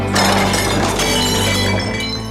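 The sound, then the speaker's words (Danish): Glass bottles clink together in a loud, dense jangle of overlapping chimes with bright ringing tones. The clatter holds steady for about two seconds and eases slightly at the end. “Og så klirrer flaskerne i serien Den gode stemning”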